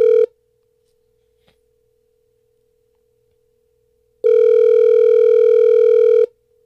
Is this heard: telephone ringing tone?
yes